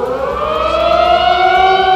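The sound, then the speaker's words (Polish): A civil defense alarm siren wails loudly and continuously across Warsaw at noon during a ghetto uprising commemoration. Its sustained tone carries stacked harmonics and drifts slightly upward in pitch, with no voices. “Punktualnie w południe w całej stolicy na minutę uruchomiono syreny alarmowe.”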